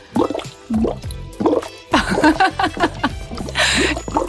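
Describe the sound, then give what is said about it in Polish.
Gurgling water bubbles through a straw in a reusable drinking bottle. Many irregular bubbling pops and burbles follow one another in a busy, uneven stream of liquid sounds. “I na przykład można zabulgotać. No to wielofunkcyjny ten bidon.”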